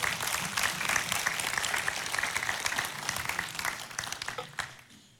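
An audience applauds as a couple comes up on stage, giving a continuous round of clapping that holds at a steady level and then tapers off near the end.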